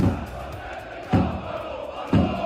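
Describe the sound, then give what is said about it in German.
Energie Cottbus fan chants blare from large loudspeakers at an FC Augsburg training session, a loud crowd chorus with a strong accented beat about once per second. “Das sind die Fangesänge des Gegners, also der Cottbusser Fans, weil der FCA am Samstag eben beim Zweitliga-Aufsteiger antreten muss”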